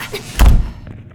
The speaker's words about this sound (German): Wir heben vorsichtig den Deckel an. Los! Ja. Da! Ich sehe sie. Sie schleichen über den Schulhof. Ja! Sie suchen alles ab. Deckel zu!